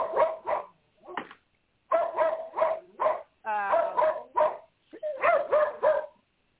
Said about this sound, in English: oh, my God, my dogs. I'm going to choke them.